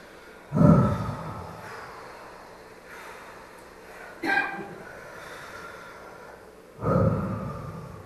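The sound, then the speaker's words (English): Three deep, relaxing breaths are blown out forcefully, each a strong, breathy exhale that fades slowly. Quieter breathing fills the pauses between them. “just take a couple of very deep, relaxing breaths and blow it out on the exhale.”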